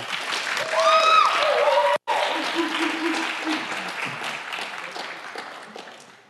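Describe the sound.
An audience applauds to welcome a professor before his talk on recovering Christian faith. Steady clapping lasts about six seconds and slowly tapers off, with voices heard over the opening moments.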